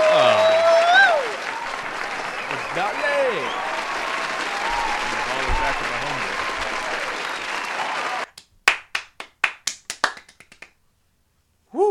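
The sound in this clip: Audience applause at a studio show: a dense, loud wash of clapping with a voice rising over it, which thins after several seconds into a handful of scattered separate claps before falling quiet.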